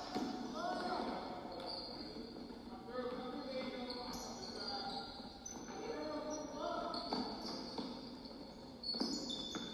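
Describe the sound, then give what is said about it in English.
A basketball dribbled during a game, repeated bounces on the court mixed with muffled voices and crowd noise throughout. “Starts dribbling again.”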